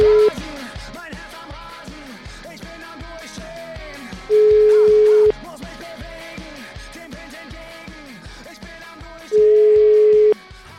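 Ringback tone of a telephone line while a call is being placed: a steady single-pitch beep about one second long, repeating every five seconds, with two full tones plus the tail of another, over a pulsing background beat.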